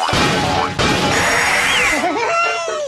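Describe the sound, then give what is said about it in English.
Crashing smash effects of boxes being broken in a video game: a loud, dense run of noisy impacts with a brief break near one second, then bright pitched game tones over the tail. “Smash those boxes, baby! Backward smash for bonus points!”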